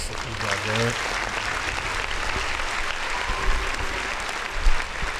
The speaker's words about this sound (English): Round of applause for motherfucking Master P.